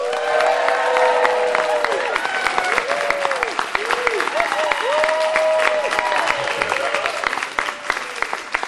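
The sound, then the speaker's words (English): A live audience applauding in the Schwab Room of the San Francisco Museum of Modern Art: sustained, loud clapping mixed with cheers and a few whoops, with voices rising over the crowd. “That's not why they're applauding. They're applauding because we're here”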